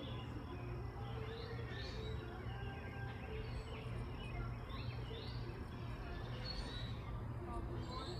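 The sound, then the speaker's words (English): Mosquitoes and other insects buzz and chirp outdoors. A faint, steady hum runs throughout, with repeated high chirps over it. “Sorry, y'all. This is mosquitoes and stuff out here. It's just terrible.”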